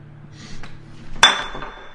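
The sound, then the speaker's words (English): A glass knocked over in an Irish bar in Australia: one sharp, clinking crash with a short ringing tail, over a low, steady hum. “That's a quintessential glass being knocked over in an Irish bar in Australia.”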